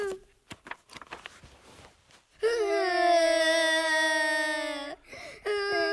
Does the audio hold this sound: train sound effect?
no